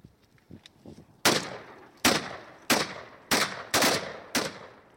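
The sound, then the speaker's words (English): Gunfire from several guns in a war-time shooting of civilians: six loud, sharp cracks at irregular intervals, each with a decaying tail, after a few fainter clicks and knocks. “They've all got their guns up. They've all cocked their weapons. And the guy with the aviator sunglasses is the first one to start firing.”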